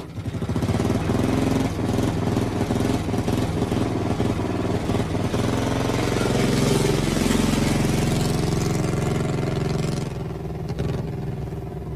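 A new motorcycle engine runs loud and steady, a rough, rattling drone with small surges in revs that holds for the whole stretch and eases slightly near the end.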